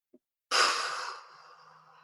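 A single long, deep breath during a guided relaxation exercise, starting abruptly and loudly, then thinning into a softer, airy trail. A tiny faint click comes just before it.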